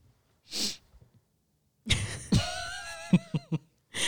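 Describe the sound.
A congested person sniffs, a brief breathy intake, followed by a louder, sudden nasal burst with a voiced tail and a few short, sharp puffs of breath.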